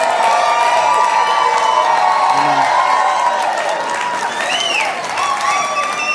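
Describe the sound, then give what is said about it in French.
A church audience shouts, cheers and applauds in a loud, continuous roar that fills the whole clip, with occasional high whoops rising above the clapping. “Come on, give Jesus a shout. Acclamons Jésus.”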